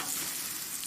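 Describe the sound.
Food sizzling on a barbecue: a dense, steady hiss of frying that carries on without a break through the brief moment.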